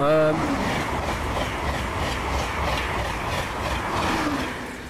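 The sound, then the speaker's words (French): Rushing roar of a high-speed TGV train speeding through a village, a steady broad whoosh that holds for several seconds before easing off at the end. “Ça, c'est le TGV qui vient de sillonner le bourg de Maillé à toute vitesse.”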